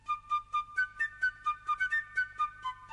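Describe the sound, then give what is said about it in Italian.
A person whistles a bouncy tune in short, clipped, evenly paced notes that step between a few pitches. The whistling is clear and alone, with no talk. “Non so cosa fare e fischietto. Fischietterò anch'io.”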